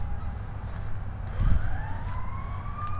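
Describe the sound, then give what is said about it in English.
Emergency vehicle sirens wail from a nearby road close to a partly melted pond, faint tonal lines slowly rising over a low, steady outdoor rumble. “So, sounds like there's emergency vehicles on West Maple Road.”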